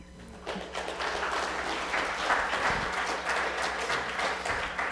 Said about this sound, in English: Love the enthusiasm. Make sure we applaud after they get baptized as well.